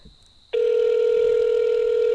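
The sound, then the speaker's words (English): A telephone rings on the line as a loud, steady electronic tone that starts abruptly after half a second of near quiet and holds unbroken to the end. “It's actually ringing a long time.”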